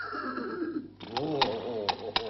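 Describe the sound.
A horse whinnies with a long, wavering, high-pitched neigh, followed by a few sharp knocks and rustling.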